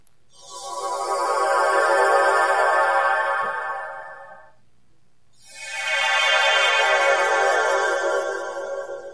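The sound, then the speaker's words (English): The Star Trek transporter beaming effect, a shimmering, sparkling tonal swell that fades in, holds and fades out, played twice with a short silent gap between, alone with no voices. “that is the sound of a transporter. The fictional Star Trek device that scans and converts a person into an energy beam and then beams it somewhere else and rematerializes.”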